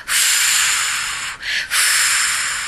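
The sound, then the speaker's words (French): A breathy blowing effect for a children's-story character puffing out his cheeks and blowing at the sun: a loud, sustained airy hiss that briefly dips twice midway before carrying on. “Il souffle sur le soleil.”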